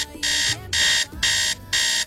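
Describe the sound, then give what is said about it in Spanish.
An alarm clock rings in four loud, evenly spaced bursts of shrill, rapid electronic beeping. Short pauses separate the bursts, and no voices are heard. “¿Qué tal si listamos la alarma?”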